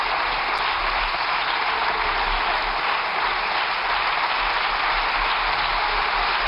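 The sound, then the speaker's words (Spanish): Applause from parliament deputies of the Socialist Party and government members, a dense, steady clatter of many clapping hands that holds at an even loudness throughout. “con los aplausos de los diputados y las diputadas del Partido Socialista y también los miembros del Gobierno.”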